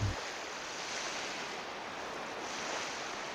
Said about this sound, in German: du hörst den Wellen zu, wie diese an den Strand gespült werden.